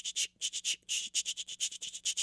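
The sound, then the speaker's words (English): Percussive bow strokes struck against the strings of a bowed string instrument, played at the bottom three inches near the frog: many short, scratchy, bright hits in a quick, steady rhythm. “it actually is like this percussive sound that you do with your bow against the strings of the instrument, like really down at the last bottom 3 inches of the frog, and you get these”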